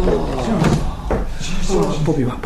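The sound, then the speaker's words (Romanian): A window being closed gives a few woody knocks and scrapes under voices that talk throughout. “Hai, închide fereastra și să intrăm în casă!”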